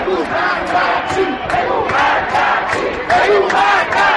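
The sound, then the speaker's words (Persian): A protest crowd on Enghelab Street chants slogans in unison, with loud, rhythmic, repeated phrases from many voices continuing throughout. “شعار دوم از انتهای خیابان انقلاب که میرسد خیلی آرام و نامفهوم است، اما موجش جمعیت را میگیرد و ناگهان صدا بالاتر و بالاتر می رود.”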